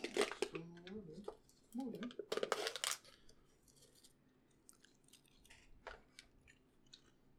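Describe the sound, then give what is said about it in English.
Faint crunching of someone chewing chips: scattered crisp clicks and crackles follow a stretch of talk, soft and irregular against a quiet background. “You chewing on chips? I ate all my chips.”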